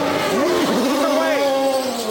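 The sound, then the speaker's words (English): A race car pulls out of a pit stop during a race, its engine tone climbing and dipping in pitch over about two seconds, mixed with other car noise and heard under talk. “Yeah, with Tony Kanaan just pulling out of his pit stop.”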